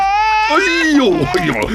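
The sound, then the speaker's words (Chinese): An infant cries in a loud, strained wail that drops in pitch partway through, then wavers and breaks into sobbing catches. “小家伙。你别哭了。我抱你一路了你。”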